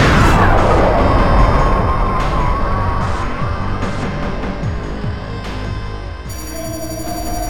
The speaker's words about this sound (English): It's a bomb. It's a... boom.